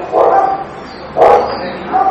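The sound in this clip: Dog barking outside: three loud, short barks spaced about a second apart, the last one cut off.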